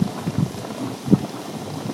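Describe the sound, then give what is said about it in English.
Boiling, bubbling water in hot pools: a steady wash of hiss with irregular low bubbling pops and gurgles, one stronger burst partway through, with no voices. “We had all these boiling, bubbling hot pools to ourselves. This is the sound of the boiling.”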